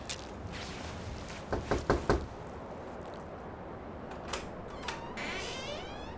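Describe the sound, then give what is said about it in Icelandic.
Knocking on a house door: four quick, fairly loud raps in a tight cluster over a low hiss, followed by a few faint thuds. “Við skulum banka upp”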